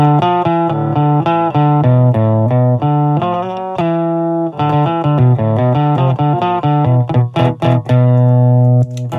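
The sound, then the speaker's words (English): Electric guitar played through the 21 dB clean boost of a Tech21 Fly Rig 5 version 1 pedal, a run of clear, bright sustained notes and chords, loud and undistorted, ending in a few quicker picked notes. “We'll go ahead and turn on that 21 dB boost.”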